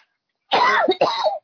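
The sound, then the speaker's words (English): Coughing and choking from allergies: a single person gives two harsh, rasping throat-clearing coughs in quick succession, loud and alone against silence. “All right, don't choke. Take it easy now. I'm just tired of my allergies.”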